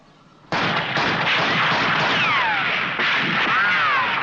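Rapid rifle gunfire from a Doctor Who scene: a loud, sustained burst of cracking shots with whistling, ricochet-like tones sweeping through the volley.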